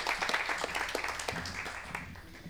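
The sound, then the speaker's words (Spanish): Audience applause at a talk, as a speaker is welcomed to the stage: a faint, steady patter of many hands clapping that holds evenly through the whole clip. “Les pido un aplauso para Coco Derigo”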